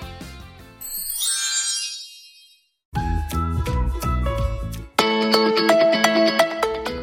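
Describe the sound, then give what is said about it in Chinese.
Loud music suddenly blares from a device in a crowded vehicle: bright tinkling chimes and a sparkling sweep, a brief gap of silence, then busier music and finally a loud chiming melody. “声音怎么播出来了？ 怎么开那么大声啊？ 音乐声把大家都吓了一跳。”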